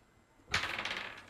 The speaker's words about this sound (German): Gerne wieder würfeln